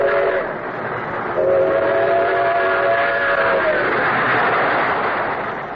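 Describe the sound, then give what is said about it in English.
A train rolls on rails into a station bound for Grand Central Station, a steady rumbling roar with a long, sustained whistle tone that holds from about a second and a half to nearly four seconds, with no talk. “As a bullet seeks its target, shining rails in every part of our great country are aimed at Grand Central Station”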